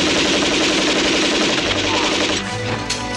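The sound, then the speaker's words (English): A heavy machine gun fires in a loud, rapid, sustained burst during a battle, its dense rattle changing and thinning near the end. “But Von Tiblis blazes away at Franchetti with a heavy machine gun, riddling him with bullets.”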